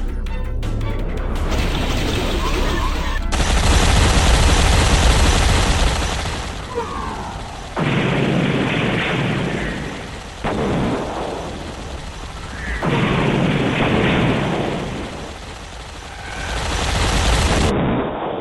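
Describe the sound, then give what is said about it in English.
Railguns firing in a space fleet battle: loud, dense booming and blasting with a few heavy bursts that swell and cut off abruptly over a sustained roar. “I'm opening fire. Done and done. Now, firing railguns!”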